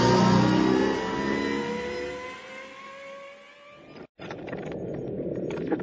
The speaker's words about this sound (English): squeezed the throttle and vanished into the night